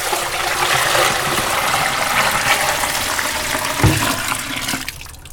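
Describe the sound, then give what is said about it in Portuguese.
Water runs steadily while sneakers are washed, a loud, broad rushing and splashing that holds for several seconds, with a brief knock near the end before the flow cuts off. “Olha só, cara, a água do negócio.”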